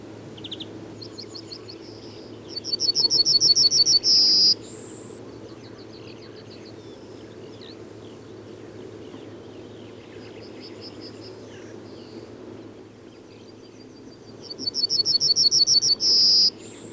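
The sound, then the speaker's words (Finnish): Yellowhammer song: two loud phrases of rapid repeated high notes, each ending in a drawn-out final note, with fainter similar phrases between them over a steady low background hum. “Keltasirkun soiniton säe on yksinkertainen, siinä ei ole kovin paljon vaihtelua ja sen oppii tuntemaan helposti. Kuuntelemme vielä keltasirkun säettä.”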